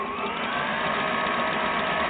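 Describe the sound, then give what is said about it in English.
A sewing machine sews a zigzag stitch at its widest setting through fabric under the presser foot. Its motor makes a steady, even whirring hum that stays constant throughout, with no voices. “Now we'll lower the presser foot. We'll hold on to our trailing threads. We'll sew. We'll do some reversing to lock our stitch in place.”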